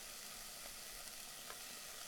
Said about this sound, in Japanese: 玉ねぎをしっかり炒めたら、今度は他の具材も入れて、しばらく待つと。